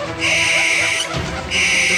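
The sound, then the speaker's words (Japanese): An owl call from a fairy-tale scene in which a fearsome-eyed owl circles overhead: two long, high, breathy screeching tones separated by a brief break, over a dense, noisy background. “怖い目のフクロウが彼らの周りを飛び、みんな叫んでいました。”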